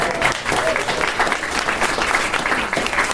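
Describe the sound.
Applause from an audience at a live evening quiz event as the quizmasters are introduced: a dense, continuous wash of many clapping hands that holds fairly steady and loud for about three seconds.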